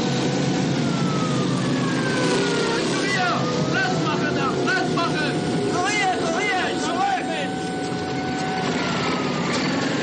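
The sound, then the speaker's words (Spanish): A motorcycle with a siren clears traffic in a WWII-era setting. Warbling siren tones rise and fall over a steady engine drone. “Todos se detienen y apartan ante el motorista con sirena.”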